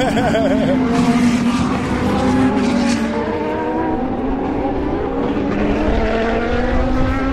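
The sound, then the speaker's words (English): Race car engines, Audi and Peugeot racers, roar by in a loud, continuous drone of layered harmonic tones, with a brief wavering pitch sweep at the start before the sound settles into a sustained engine howl. “Because I don't remember hearing any engine noise last year. You can hear it. You can hear them.”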